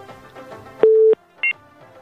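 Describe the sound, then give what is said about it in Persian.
A telephone tone plays after a call is cut off. A faint murmur comes first, then one steady low beep lasting about a third of a second, followed by a single short, higher beep. “فکر میکنم تماس شما متاسفانه قطع شد.”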